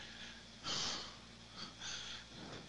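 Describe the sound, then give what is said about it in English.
A few faint, breathy inhales and sniffs come from an angry person on the verge of tears who pauses to breathe and calm down. They arrive as soft separate puffs of air, with quiet between them. “excuse me a sec, I need to breathe.”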